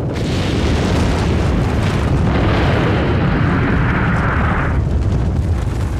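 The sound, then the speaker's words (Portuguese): Deep, continuous rumbling roar of an atomic explosion: a uranium fission bomb detonating 600 metres above the city of Hiroshima. The loud, dense rumble holds steady for the whole stretch, with no clear separate blasts and no voices. “A ogiva de fissão de urânio, carinhosamente apelidada de Little Boy, explodiu 600 metros acima do solo de Hiroshima.”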